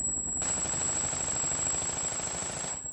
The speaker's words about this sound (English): I looked back to see Ambridge and Harris, each behind a different car, firing at the helicopter in front of us.